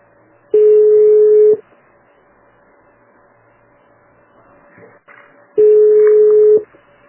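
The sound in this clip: Telephone tones while a call is transferred: two long, steady, loud tones of about a second each, separated by a gap of several seconds of low hiss.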